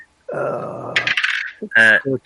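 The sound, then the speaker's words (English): A ten-sided die rolls for a tabletop game, making a rattling clatter under a second long. A brighter burst follows, and then people talk. “I'll tell you what, I'll just roll a D10.”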